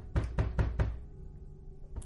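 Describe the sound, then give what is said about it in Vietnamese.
Loud knocking on a door: four quick, heavy thuds in a rapid, even row, a brief pause, then one more knock at the very end. “nghe tiếng đập cửa rầm rầm bèn bật dậy”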